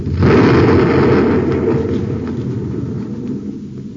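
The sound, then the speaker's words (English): A torpedo is fired and explodes with a heavy, deep booming blast that starts abruptly and then rolls on as a long, slowly fading low rumble. “He's making a pass right over us. He fired a torpedo.”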